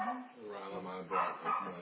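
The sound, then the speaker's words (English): A dog barks and whines in a continuous, wavering vocal sound with two louder bursts near the end. “And that's just a dog, guys.”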